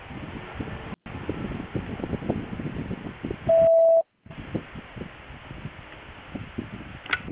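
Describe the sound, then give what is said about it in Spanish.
A voicemail beep signal plays before message recording on a phone line: one loud, steady mid-pitched tone lasting about half a second, set between stretches of faint line hiss and followed by a brief silence. “Por favor, deje un mensaje en la casilla de voz después de la señal.”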